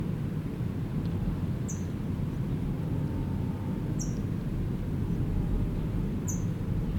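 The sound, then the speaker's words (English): Faint, high chips from an adult Brown Towhee carrying food at its nest. A few short, thin notes sound at spaced intervals over a steady low rumble. “Adult is chipping, it's got food in its bill”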